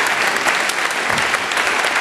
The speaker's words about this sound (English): Please thank them for me.